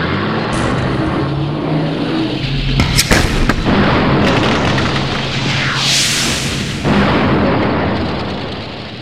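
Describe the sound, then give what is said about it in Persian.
A tank shell explodes on a loader during a battle, in a dense, loud, continuous roar of blast and rumble. A few sharp cracks punch through the din. “چند لحظه بعد گلوله تانک لودر رو خاکستر کرد.”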